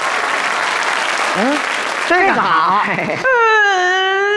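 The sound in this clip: A young girl cries after being teased with a nickname in a children's group, sobbing in wavering, voiced bursts that end in a sustained, harmonic wail over steady background noise.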